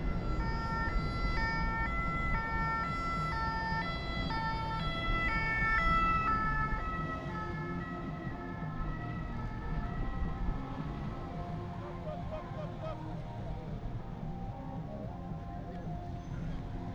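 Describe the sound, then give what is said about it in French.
An ambulance siren sounds as the vehicle arrives through a blockade on an industrial boulevard in Sotteville-lès-Rouen. Loud, alternating two-tone wails hold for several seconds, then fade into a low rumble of engines. “Il y a des manœuvres pour faciliter le passage à une ambulance qui est en train d'arriver au fond.”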